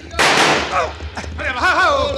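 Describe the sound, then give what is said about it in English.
A single loud rifle gunshot cracks out in a broad blast that trails away, followed by a man speaking. “Shoot the rifle out of my hands, will you, Cisco?”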